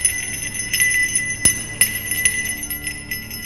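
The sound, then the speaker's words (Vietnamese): A bell rings with a jingling clang, bright high metallic tones ringing on continuously while a series of sharp strikes cut through at irregular moments. “đột nhiên một tiếng chuông leng ca leng keng vang lên. Tiếng chuông vang lên rõ lắm, to lắm.”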